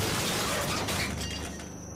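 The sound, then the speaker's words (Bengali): A water jug and a drinking glass fall from a table onto the floor with a loud, noisy crash and shattering clatter that slowly fades. “Table থেকে জলের jug গেলাস সশব্দে নিচে পড়ে গেল।”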